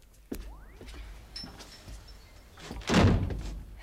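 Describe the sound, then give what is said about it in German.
A door is pushed shut, with a sharp click near the start, quiet shuffling, then a loud, heavy thud as it closes a few seconds later, with no one speaking. “Mach doch mal die Tür wieder zu, ja?”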